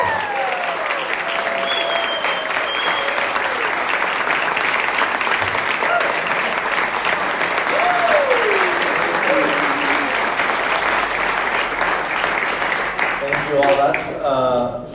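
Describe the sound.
Audience applause welcomes a family onto the stage at a church gathering: steady, dense clapping that lasts throughout, with a few whistled or cheering tones rising above it.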